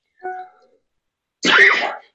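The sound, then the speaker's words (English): A single harsh cough from a person who has a cough. A brief voiced throat sound comes first, then a short gap, and the loud cough stands alone against quiet. “I'm sorry, I have a cough.”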